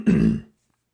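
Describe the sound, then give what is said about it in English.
A single short, rough throat clearing, loud and alone, ending abruptly and followed by silence. “Sorry, I had to clear my throat. I didn't want to do that on the air. It's gross.”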